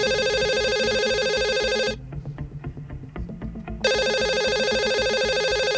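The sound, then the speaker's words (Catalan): A telephone rings with an electronic tone for an incoming evening call: two long, steady ringing bursts separated by a pause of about two seconds, loud and alone with no talk. “Va rebre una trucada d'una tal Isabel, que va dir que era amiga de l'Helena.”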